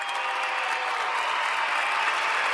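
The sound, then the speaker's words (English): A round of applause for Auburn football running back Carnell "Cadillac" Williams: a thick, uniform rush of many hands clapping that holds steady and even from start to finish, with no voices. “So we got to give him a round of applause.”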